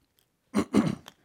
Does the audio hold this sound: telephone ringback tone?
no